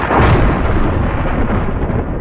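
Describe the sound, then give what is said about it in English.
Thunder breaks in a loud, deep rolling rumble that starts strong and then slowly tails off in a long, churning roar. “The odds of being struck by lightning are less than 1 in 1 million. But when you hear this sound,”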